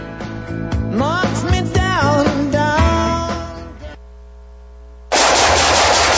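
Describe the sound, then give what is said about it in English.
Loud automatic gunfire crackles in rapid bursts with ringing, sweeping tones, then fades to near quiet before a harsh, sustained blast of noise. “Nice shooting.”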